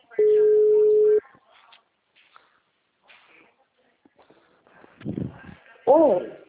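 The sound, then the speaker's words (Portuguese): A single steady telephone tone lasting about a second after a dropped call, then faint rustling and a few soft knocks, with voices talking near the end. “tava terminando, a ligação caiu, né?”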